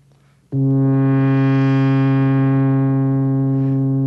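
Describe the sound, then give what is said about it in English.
A single sustained synthesizer note whose tone brightens and then mellows as an envelope generator opens and closes the filter, steady in pitch and loud throughout. “That opening and closing of the filter was done not by me, but by the envelope generator.”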